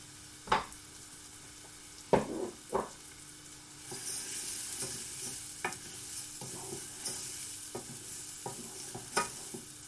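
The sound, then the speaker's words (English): Risotto rice stirred in a pan with butter and softened onion: a few sharp scrapes of the spoon, then a steady sizzle of frying with lighter, irregular stirring strokes. No one speaks. “Move all that around in the pan so it gets nicely covered with all that butter and the onion.”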